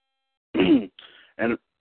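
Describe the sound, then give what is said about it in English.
A man clears his throat in three rough, loud bursts: a long voiced rasp, a thinner hoarse scrape, then a short final hack, with no speech around them. “I got something stuck in my throat”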